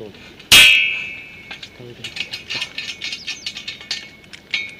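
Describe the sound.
A steel scaffolding pipe being handled gives one sharp, ringing metallic clang, followed by a long run of lighter clicks and knocks as the metal is shifted about.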